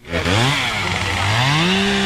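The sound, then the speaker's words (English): A chainsaw runs loudly and without a break at a wildfire scene, held by a fire crew member putting out hot spots. Its engine pitch climbs, dips, then climbs again as it revs. “We walked by a fire crew putting out hot spots. One guy had a chainsaw.”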